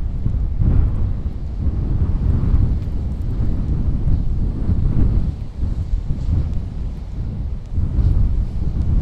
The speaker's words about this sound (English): Apparently it's too windy for a pedalo.